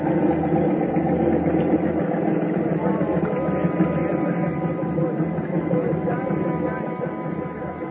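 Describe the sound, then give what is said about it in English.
A gasoline motor that turns a Ferris wheel, its fuel tank dosed with pink lemonade, runs in a steady, low, rumbling idle that eases slightly quieter toward the end. “walked over to the motor that rolled the big heap, unscrewed the cap on the gas tank, and gave it a big, long drink.”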